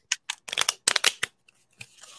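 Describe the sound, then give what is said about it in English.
A deck of cards is shuffled right against a microphone, giving many quick, crisp riffling bursts in an uneven rhythm that thin out into a few light taps and a soft trailing rustle. “I did it against the mic. Shuffled against the mic just now.”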